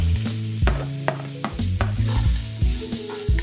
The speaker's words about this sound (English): we're gonna throw the onions in. Now you can throw the onions right in with the carrots here